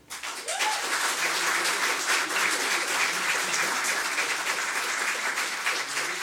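Canned applause from a fake studio audience: dense, steady clapping that swells in at once and holds at an even, loud level for about six seconds.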